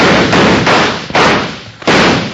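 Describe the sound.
Gunshots in a western radio drama shootout: several loud, booming shots come in fairly quick succession, each followed by a long, thick rumble that fills the gaps.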